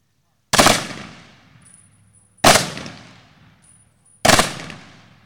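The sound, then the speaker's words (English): Three evenly spaced rifle volleys fired as a salute honoring departed veterans at a memorial ceremony, each a loud sharp crack followed by a long fading echo and then near silence. “At this time, we'll now honor our departed veterans with the rifle salute and taps.”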